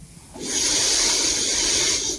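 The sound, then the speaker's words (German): A single long Ujjayi breath during a yoga balance session, drawn through a narrowed throat. It sounds as a soft, steady hiss lasting about two seconds, swelling in and tapering off, with no talk over it. “Auch hier ist der Atem tief in der Kehle spürbar, vielleicht auch hörbar über Ujjayi-Atem.”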